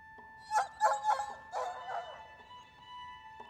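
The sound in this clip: Dogs barking and yipping as they try to leap over the walls of a town, with a quick run of sharp, high yaps followed by fainter whining yelps over a steady tone.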